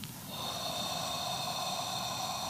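A deep breath drawn in through the nose: a single long, airy, hissing inhale that starts after a short pause and holds steady for about two seconds, quiet and alone.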